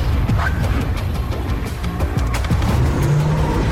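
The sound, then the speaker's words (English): A Cadillac accelerates hard and spins around a corner behind a restaurant, giving a loud, rough engine roar with rumbling road noise that carries on throughout. “Wax accelerates, then spins the Cadillac around the corner and heads behind the restaurant.”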